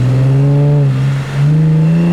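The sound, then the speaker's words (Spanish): Engine of a police car speeding past: a loud, steady, droning roar that dips briefly midway, then returns slightly higher in pitch. “Un auto policial pasa a toda velocidad en dirección al obelisco.”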